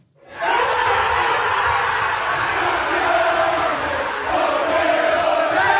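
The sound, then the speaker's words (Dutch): Fans celebrating Arsenal's Premier League title in the players' home: a dense crowd roar of cheering voices that surges in after half a second and holds loud and steady to the end. “Hij kon de titel nog niet vieren op het veld, wel in het spelershome. En dat klonk zo.”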